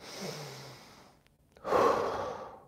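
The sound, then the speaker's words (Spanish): A slow, deep breath during a seated relaxation exercise: a soft, airy inhale fades into a brief pause, then a louder, fuller whooshing exhale lets the air out. “Primero vas a inhalar con, llenando todos tus pulmones y vas a exhalar como soltando el cuerpo”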